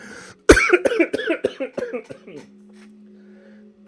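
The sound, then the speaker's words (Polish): A man coughs hard after choking: a sharp, loud burst followed by many quick, rasping, partly voiced coughs in an uneven run, fading into quiet with a faint steady hum. “Przepraszam, aż się zakrztusiłem.”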